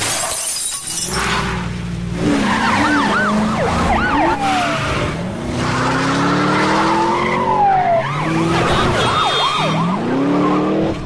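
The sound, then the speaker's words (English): Tyres screech and skid as a police car brakes hard during a chase. A loud crash of shattering glass comes near the start, followed by dense, wavering squeals that run loud throughout with no voices. “He slams on the brakes so the next car rear-ends him, then has to duck as the sniper gets some shots off at him.”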